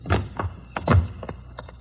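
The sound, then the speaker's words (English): A basement window being forced open: a few faint, irregular wooden thunks and knocks, short and dull, with quiet gaps between them. “We found a window in the basement and finally jimmied our way in.”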